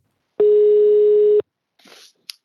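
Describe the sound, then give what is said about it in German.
A telephone call is being placed, with one loud, steady beep held for about a second, then a short soft rustle and a brief click. “Und einen davon müssen wir jetzt noch kurz anrufen.”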